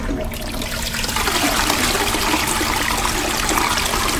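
A toilet flushes with rushing running water, a loud, steady whoosh that swells after the first second and continues unbroken to the end, with no voices.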